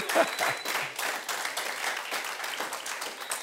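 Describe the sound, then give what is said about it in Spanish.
A church audience applauding during a service, the dense, continuous clapping of many hands, loudest at the start and then holding an even level. “Eso es, dele un aplauso al Señor,”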